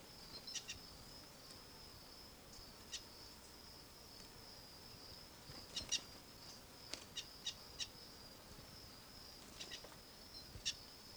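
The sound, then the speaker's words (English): A wild bird gives faint, scattered short chirps over a steady, high insect-like drone, with several brief calls clustered in the middle and near the end, all very quiet, with no voices. “Wild bird in the background.”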